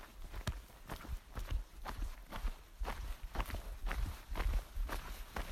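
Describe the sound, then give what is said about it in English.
Hikers' footsteps on a trail climbing a big uphill: many steady, regular thudding steps with a crunchy edge, fairly quiet, with no talking. “It's been some tough walking this morning. Big uphill, over 2000 elevation gain, over I think like 6 miles.”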